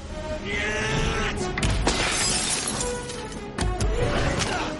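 A bayonet stabbed into cockpit glass gives a few sharp, cracking impacts over a dense, steady background of noise.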